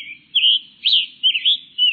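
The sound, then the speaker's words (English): Songbirds singing, scarlet tanager and hooded warbler, in a few high, clear, whistled phrases that slur up and down, each short and bright, with brief pauses between them and no other sounds. “Songbirds, like the scarlet tanager and hooded warbler we've been hearing”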